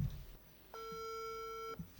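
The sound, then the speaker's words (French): A telephone ringback tone on an outgoing call to an interviewee: one steady, level electronic tone lasting about a second, with brief quiet stretches before and after it. “Alors, essayons d'appeler Madame Nakache.”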